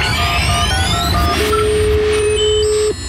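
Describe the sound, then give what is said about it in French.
A telephone line's ringing tone on a call-in to a game hotline: a single steady, mid-pitched tone of about a second and a half, sounding over continuous music and then stopping abruptly. “Ça sonne, c'est bon signe.”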